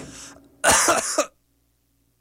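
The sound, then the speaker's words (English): A single harsh cough from someone during a recording session: one loud, rasping burst about half a second long with a couple of pulses inside it, then silence. “I'm hoping that's going to be the only cough in the recording.”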